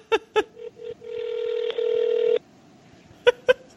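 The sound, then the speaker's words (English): A telephone call rings out to the Kentucky Castle: a few short beeps, then a long sustained ringing tone, then two more short beeps, with no voices. “Will they answer or won't they? Let's see. It's 8 p.m. in Kentucky. It's right during dinner time. Isn't there a voicemail I can leave? We're calling the Kentucky Castle.”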